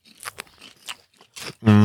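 Crisp, crunchy chewing of sugar-coated popcorn, with a few separate crackling bites spread unevenly across a short stretch. The crunches are loud and close.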